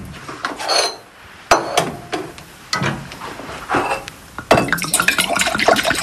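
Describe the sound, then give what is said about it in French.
Essential oil is poured into a glass beaker amid sharp glass clinks and knocks, with a few distinct hits spaced out and denser clattering and trickling toward the end. “Là, on verse un peu d'huile essentielle dans le bécher.”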